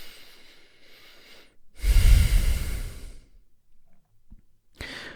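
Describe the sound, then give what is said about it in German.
A deep breath is drawn in and let out, with one loud, airy rush lasting over a second between quieter breathing and a brief soft breath at the end. “Atme einmal tief ein und aus.”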